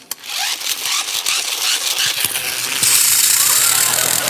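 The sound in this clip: An imitation of a dentist's drill, a harsh rattling whine that grows shriller and settles into a steady high-pitched hiss in its second half. A single short spoken word opens it.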